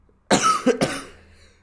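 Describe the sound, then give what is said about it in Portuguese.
A person coughs in a short burst of a few harsh, breathy coughs, fairly loud and close together, fading out after about a second. “Olha, vão ouvir tossir. Para além das asneiras, os nossos ouvintes vão ouvir também tossir”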